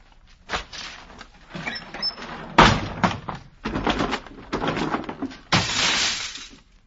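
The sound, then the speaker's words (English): Drapes are ripped down in a radio drama, heard as several loud, noisy tearing bursts of fabric separated by short pauses, with the longest, harshest rip coming last. “I shall open the drapes, Miss Havisham. I shall rip down the drape!”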